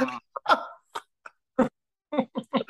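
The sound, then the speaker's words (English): A comedian's voice imitates Mitch McConnell's throat sounds with a string of short, croaky throat clears, gulps and grunting bursts separated by brief silences. “I could definitely do a decent Mitch McConnell. Maybe just do Mitch McConnell's throat. Like, his mouth.”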